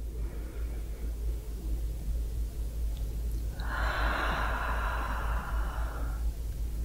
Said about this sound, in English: Another breath in.